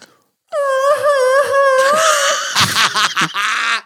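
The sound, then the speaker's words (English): A human voice imitates a bat's mating noise: a long, high wavering wail that rises and dips, then breaks into choppy stuttering squeaks before ending on a sustained squeal. “Why am I making bat sex noises on the podcast already?”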